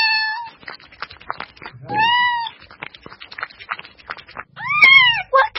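A cat meows several times, clear mid-pitched cries spaced a couple of seconds apart, with faint clicks and rustles in the quiet gaps between them.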